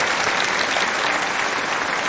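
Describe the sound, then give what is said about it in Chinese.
Audience applause after a lecture: a steady, dense wash of clapping with no pauses, fairly loud and heard alone. “再次把掌声送给您”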